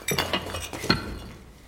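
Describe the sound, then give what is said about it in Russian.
Shards of a broken pipe bend kicked aside by foot: a few light clinks and rattles, fairly quiet, then fading away. “Продолжает бить по нему молотком. Разбивает отвод. Убирает ногой осколки.”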